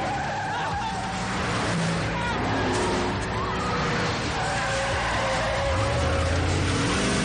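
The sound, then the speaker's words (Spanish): A car engine roars and tires squeal as an enemy car in a 1999 action thriller swerves off the pavement and back onto the road, driving dangerously. The engine noise is steady and loud throughout, with talk over it. “el coche de los enemigos abandona la acera y vuelve a circular peligrosamente por la calzada.”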